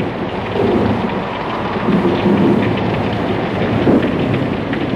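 Heavy rain pours down in a thunderstorm at sea, a dense, loud, steady roar of falling water with low thunder rumbling and swelling a few times underneath; no voices.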